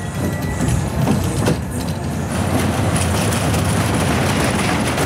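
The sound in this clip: An amusement park ride rushes along its rails through tight curves, giving a loud, steady rumbling and rattling roar that carries on without a break for about five seconds, with no voices.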